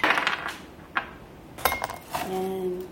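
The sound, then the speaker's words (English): Ice cubes clink in a glass: a few sharp, bright knocks come at uneven intervals, and the last leaves a brief, steady ringing tone. “So I just have this glass with ice.”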